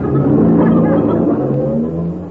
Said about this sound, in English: Uh-oh, there's a bus. Hey, wait! Wait for me!